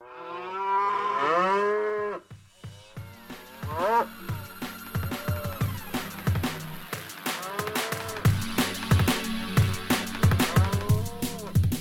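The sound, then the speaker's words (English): Cattle mooing mixed into a DJ mix: a long, loud moo opens, then a steady electronic beat takes over with further lowing calls layered over it. “so I took one of his DJ mixes and put some Bill Hicks to it and a few farm animals.”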